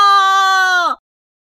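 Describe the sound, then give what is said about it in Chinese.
A pig squeals while being carried away, one loud, sustained, high-pitched cry lasting under a second that wavers and drops at the end before cutting off into silence. “来个工作人员把这只猪抱走一下。”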